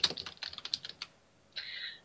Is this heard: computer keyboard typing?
yes